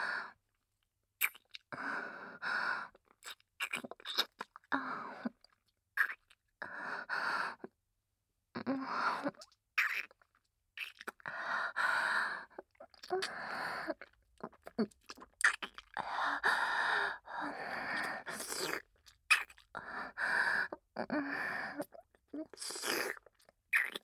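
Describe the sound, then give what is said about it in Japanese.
Kissing sounds of a welcome-home kiss come as many short, wet, smacking mouth noises in quiet, irregular bursts separated by brief silences. “ご主人様のご要望通り、お帰りのキスをさせていただきます”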